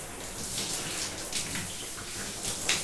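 Hot water runs over hair, rinsing out a light styling product: a soft, steady hiss of flowing water with small irregular splashes, fairly quiet and uninterrupted.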